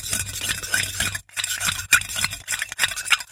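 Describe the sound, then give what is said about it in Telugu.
Stirring powder into a solution until it dissolves: a utensil scrapes and clinks inside a container in quick, uneven repeated strokes, with one brief pause partway through. “ముందు ఈ 50 గ్రాముల పొడి కలుపు. అమ్మా కరిగిపోయింది. ఇప్పుడు ఆ 20 గ్రాములు కలుపు.”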